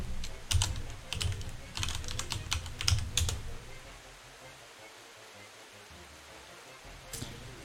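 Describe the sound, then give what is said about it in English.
Computer keyboard typing as a message is typed into a chat: a quick burst of many clicking keystrokes for the first few seconds, then near silence broken by a single faint click near the end. “I'll type it out in chat.”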